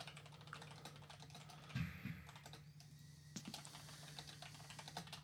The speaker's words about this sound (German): Ich schreibe mir das jetzt nochmal kurz hier aber auf.